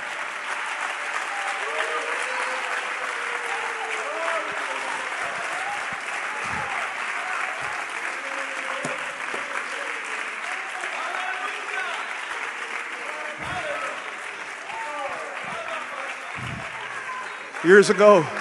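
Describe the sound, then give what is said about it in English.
Congregation clapping during a church service: a steady, sustained wash of applause that runs throughout, with voices over it, swelling louder in a brief burst near the end. “Come on, clap again.”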